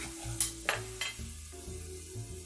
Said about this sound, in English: So I have some black beans that I've drained here and just tossing them in the pan.